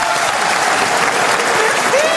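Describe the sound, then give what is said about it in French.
Audience applause from a crowd: dense, loud, continuous clapping that holds steady from start to finish without a break. “On peut applaudir Yann Folli.”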